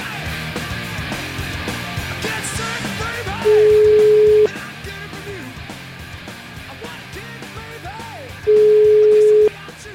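Ringing tone of an outgoing telephone call: two steady, mid-pitched one-second tones spaced about five seconds apart, heard over continuous background music.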